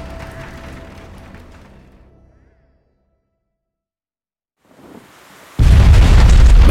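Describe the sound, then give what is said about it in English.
A grenade explodes beneath a striding war machine with a heavy, loud blast that starts abruptly and roars on to the end. Before it, a rumbling noise fades into silence, and then a brief rising swell leads into the boom. “Grenade exploded. The aim had been good, but the device had bounced oddly at the last moment and had gone off beneath the striding dreadnought.”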